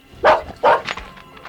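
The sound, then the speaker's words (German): A dog gives two loud, sharp barks in quick succession, then a fainter short sound follows. “Da ist wirklich ein Hund! Ja, Hund? Hallo Hund, wo kommst du denn her?”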